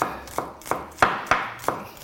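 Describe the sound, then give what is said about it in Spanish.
A knife chops onion finely on a board: six sharp, evenly spaced cuts in a steady rhythm, with a short crisp attack on each stroke and no voices. “Si partimos la cebolla gruesa, luego nos vamos a encontrar trozos gruesos y eso no queremos. Queremos encontrarnos unos trocitos de cebolla finitos, pequeños, y que nos van a saber a gloria.”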